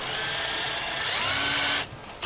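A cordless drill-driver whirs as old roof panels are removed, a steady high-pitched motor whine held loudly before it abruptly cuts off near the end.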